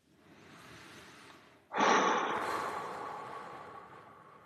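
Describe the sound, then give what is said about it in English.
A breath from a breathwork exercise aimed at the middle of the chest: a soft, airy inhale is followed by a sudden, forceful exhale that tails off gradually. “Now we're going to breathe into the middle. It's going to be a little bit faster, but you're going to breathe into the middle between your belly button, below your nipples.”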